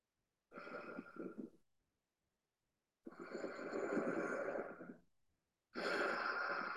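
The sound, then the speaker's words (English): Breathing with a soft, raspy throat sound on both the exhale and the inhale: three slow, hushed breaths separated by pauses, with the airy hiss of each one held for a second or two, quiet and alone. “So just try experimenting first with this exhale, and then try to duplicate or imitate that sound, that movement in the throat on the inhale.”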